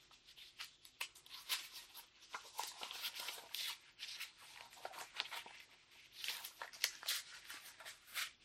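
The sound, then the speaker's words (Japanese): Rubber crinkling and rustling as the cuff of a rubber glove is folded over to keep detergent from running down, many short, soft, irregular bursts, faint overall. “大事なのは洗剤が垂れてこないようにゴム手袋の端の部分をちょっと折るん”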